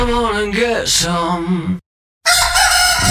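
A rooster crows one long, loud, wavering cock-a-doodle-doo lasting under two seconds. A short silence follows, then a dense burst of other sound.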